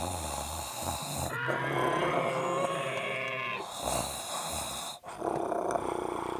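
A child snoring on a bedroom floor, rumbling like a growling, sniffing monster: a continuous raspy drone with repeated breathy swells, broken by one abrupt dip near the end.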